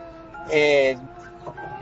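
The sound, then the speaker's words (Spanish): A person imitates a crying cat with one loud, drawn-out, tonal meow, then the voice drops back to quieter sounds. “Y ahí le entregó, pero el gato empezó a llorar así”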